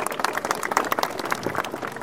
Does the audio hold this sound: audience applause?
yes